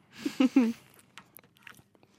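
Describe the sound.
Biting and chewing a crunchy, nutty snack. A brief voiced hum or laugh comes first, then a few faint, crisp crunches.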